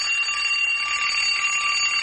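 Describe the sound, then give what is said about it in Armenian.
An alarm clock rings continuously, a dense, bright, high-pitched metallic ringing that holds at a steady level for the whole two seconds with no pauses and no voices. “Այս սեպտեմբերից երևանաբնակ դպրոցականների ընտանիքներում զարթուցիչը կզնգա սովորականից ավելի շուտ։”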